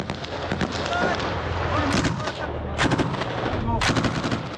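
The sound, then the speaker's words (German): Gunfire from a 1980s-era machine gun: dense, rapid cracking shots fill the whole stretch, with several heavier, louder bursts standing out at roughly regular intervals. “Ich habe ein Maschinengewehr, ein Gewehr aus den 80er Jahren.”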